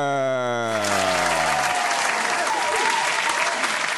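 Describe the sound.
Applause from an audience greeting a guest comes in just after a voice and carries on as a dense, even clatter of clapping to the end.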